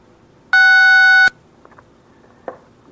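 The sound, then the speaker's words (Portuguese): A telephone keypad beep sounds during a landline call with line trouble: one sustained, bright electronic tone, followed by a few faint clicks. “vê se não está tocando no teclado aí”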